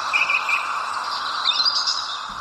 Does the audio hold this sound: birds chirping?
yes